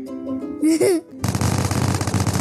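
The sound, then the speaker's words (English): Gunfire in a Roblox video game: a dense, continuous burst of many rapid shots. A brief high-pitched squealing voice comes just before it. “I was shooting. Oh, that bad boy does 100 damage.”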